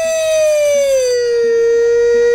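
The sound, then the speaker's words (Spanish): A siren wails in one loud, continuous tone that glides slowly downward in pitch for about two seconds. Faint low pulses sound beneath it. “La sirena.”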